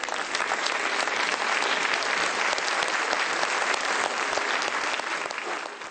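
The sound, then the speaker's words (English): An audience applauds to welcome a guest speaker, a steady, dense patter of many hands clapping without a break before easing off slightly at the end. “Please put your hands together to give Ms. Brasesco a warm welcome.”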